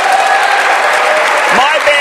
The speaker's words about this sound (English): Yes, let's cheer for that.